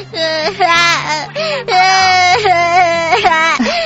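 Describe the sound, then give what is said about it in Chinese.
A young child cries in pain, loud wailing sobs in a run of breaking, rising and falling cries with short catches of breath between them. “乖乖乖，等一下就不痛了，要勇敢， 要勇敢哦， 不要哭哦， 不哭不哭啊。”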